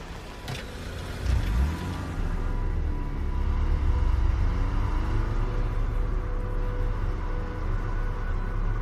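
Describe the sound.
A car reverses and then drives off at night. A steady low engine rumble and road noise swell early and then hold at a fairly even level, with no voices.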